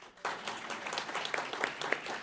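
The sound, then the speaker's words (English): A studio audience breaks into applause when asked whether it likes a candidate entering a political race. The dense clapping starts abruptly and holds steady for about two seconds. “by a round of applause, how many people are by applause like the idea of Mike Bloomberg entering the race?”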